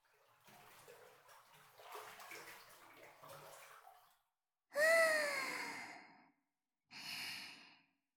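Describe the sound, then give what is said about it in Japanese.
Soft water sloshing and lapping as someone settles into a hot bath, faint and steady at first, followed by two long, loud voiced sighs with short breaths. “お湯ちょっと厚めに入れておいたんだけど、どう？染み渡る感じがする？”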